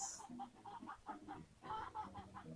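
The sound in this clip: Chickens clucking in a faint, rapid series of short, soft clucks, closely spaced and fairly steady, with no voices.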